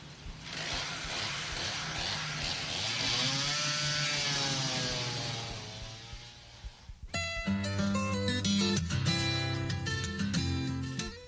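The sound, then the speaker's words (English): A motor saw trims and cuts down a small tree, its engine droning loudly for several seconds as its pitch rises and falls. “Would you like to trim this tree now? I'll try. Then you can cut down the next one.”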